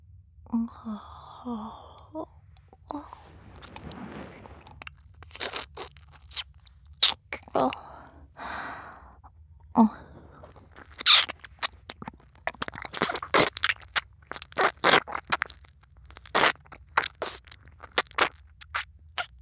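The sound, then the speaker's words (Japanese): Wet ear licking on the right ear after insulating gel has been applied: many irregular soft smacks, clicks and slurping contacts, fairly quiet, with breathy sounds in between. “マスター、耳を舐められて気持ちいいですか？”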